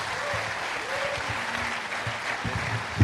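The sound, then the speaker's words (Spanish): An audience applauds a pastor in a church with steady, continuous clapping that holds an even level throughout, without a clear break. “So let us give Pastor Manfred a big hand.”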